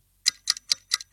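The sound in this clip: A clock ticks in a steady, even rhythm: a handful of crisp, sharp ticks about a quarter second apart, fairly quiet with silence between them.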